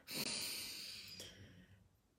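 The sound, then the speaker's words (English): A single slow, deep inhalation draws in softly and faintly for about two seconds, breathy and airy, with nothing else around it. “Let's just take a deep breath in”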